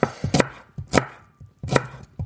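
A knife chopping spring onions, a few sharp, loud chops falling in an uneven rhythm with short gaps between strokes and no talking.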